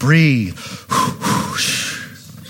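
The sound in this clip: An exaggerated deep breath drawn as a joke by a speaker talking about giving birth, opening with a voiced tone that sweeps up and down, then turning into loud, noisy breathing.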